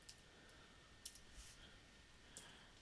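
Faint clicks of a computer mouse operating flight-planning software: a few sharp, brief taps at irregular intervals over low, steady background hiss.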